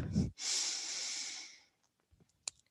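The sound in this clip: Slow breathing during yoga practice: a short, sharp intake is followed by one long, steady hissing exhale that gradually fades into near silence, with a few faint clicks at the end.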